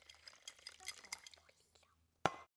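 Utensils clatter and scrape as dinner is served from a pot onto a plate, with a run of light irregular clinks and one sharper, louder clink near the end.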